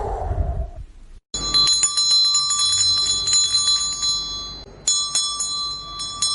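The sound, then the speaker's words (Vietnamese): A bell hanging on a door rings out at midnight with bright, shimmering metallic tones, jangling in a sustained burst before a fresh strike sets it ringing again near the end. “Chuông kinh hồ treo trên cửa rung lên từng hồi lanh lảnh.”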